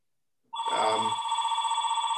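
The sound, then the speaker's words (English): A telephone ringing with a steady electronic tone that starts abruptly and holds at an even, fairly loud level with a slight warble. No one speaks over it. “I'm ignoring that phone.”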